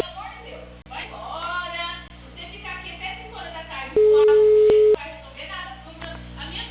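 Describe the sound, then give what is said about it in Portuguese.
A steady ringback tone on an outgoing phone call, one flat, loud, mid-pitched beep lasting about a second, sounding over ongoing talk and background noise. “Eu tô ligando aqui, só que tá chamando.”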